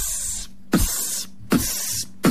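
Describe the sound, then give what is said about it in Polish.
Beatboxed imitation of mosquito repellent spray: four breathy hissing bursts, each starting with a sharp attack and holding a steady airy sizzle, with brief pauses between them. “A ja pokażę wam, jaki beatbox można robić na wakacjach. Na przykład ten dźwięk sprayu na komary.”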